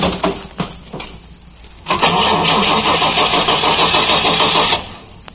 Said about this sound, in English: Get in and push the starter again. Let's see what happens.